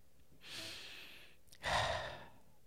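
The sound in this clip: A big breath drawn before speaking, two airy breaths with no talk, the second louder and fuller than the first.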